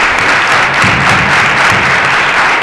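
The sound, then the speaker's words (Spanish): Audience applause at the end of a university lecture: a dense, steady wash of many hands clapping that stays fairly loud for the whole stretch, with no speech over it. “Pues. Un aplauso.”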